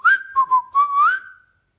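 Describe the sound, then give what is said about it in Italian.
A short whistled tune of several clear, pure notes that dips lower and then climbs back up, ending in a held, sliding note. It is loud and heard alone. “Si fermano di colpo, Pimpf fischietta”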